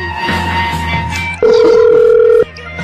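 A telephone call being placed, heard as one steady, loud tone lasting about a second over a low bed of background noise.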